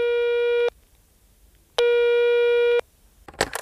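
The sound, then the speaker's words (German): A telephone line tone after dialing a number: two steady electronic beeps, each under a second long, separated by a silent gap, with a short burst of noise at the end. “So, aber ich habe die Nummer schon gewählt.”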